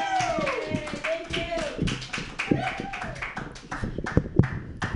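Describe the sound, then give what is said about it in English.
An open mic comedy audience claps for a comedian, a rhythmic patter of hands mixed with taps. Voices and cheering rise over the clapping, which rises and falls in bursts throughout. “Give yourself together, everybody. Give yourselves together. Clap your hands in a slappy-like motion for Andrea David.”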